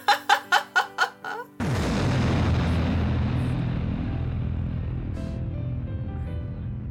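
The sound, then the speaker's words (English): A spaceship explodes with a sudden heavy boom that rolls into a long, rumbling decay, following a quick run of short, laughter-like bursts. “I personally was rooting for your ship to explode.”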